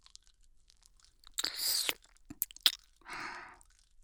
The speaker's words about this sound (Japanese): もう一度噛んであげる。